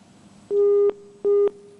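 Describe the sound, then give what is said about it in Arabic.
A telephone busy tone after a dropped call: two steady, fairly loud mid-pitched beeps, each under half a second, separated by a short gap with nothing else around them. “انقطع الاتصال معنا”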